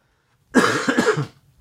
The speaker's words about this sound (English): Except I have to cough right now.